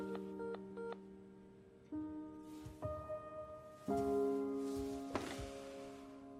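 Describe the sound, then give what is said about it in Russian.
A telephone being dialed to place a call in a film scene: a quiet series of electronic keypad beeps and sustained tones that shift in pitch from one step to the next, with a few soft thumps among them. “Звонит Лизе. Алло?”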